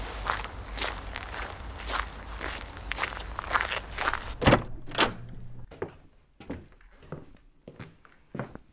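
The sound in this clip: Footsteps of people walking into a beach house: many steady steps, louder and over a noisy background at first, then quieter and more spaced out in a calmer space.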